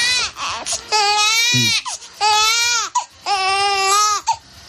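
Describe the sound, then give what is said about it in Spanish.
A baby cries loudly in a few long, wavering wails, each broken by short gasping breaths. The crying stands alone, with no talk over it. “hoy comienzo con una de las situaciones más desesperantes a las que se enfrenta un adulto. Oír llorar a un bebé.”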